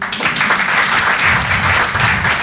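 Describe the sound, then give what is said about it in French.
Applause from a live stand-up comedy audience, a dense, loud and steady wash of clapping that fills the whole clip without a break, with no voice over it. “Applaudissez ceux qui ont fait du caté.”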